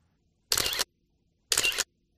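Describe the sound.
A camera shutter fires twice, about a second apart, each a short, crisp mechanical burst standing alone in near silence.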